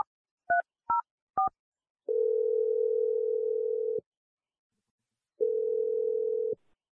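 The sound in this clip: Telephone tones while calling someone: three short keypad beeps in quick succession, then two long, steady, even tones separated by a pause of about one and a half seconds.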